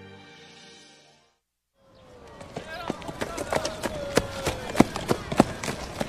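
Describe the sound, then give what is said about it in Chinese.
Horse hooves clip-clop as a rider tours through the city of Chang'an. After a short silence, many quick hoofbeats sound in a brisk, uneven rhythm that grows louder. “穿上崭新的衣服，骑着高头大马，在长安城里尽情地游览。”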